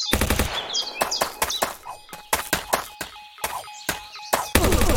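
Rapid machine-gun fire in a video game: many loud, sharp shots come in uneven bursts and clusters with short gaps between them, and no talk is heard.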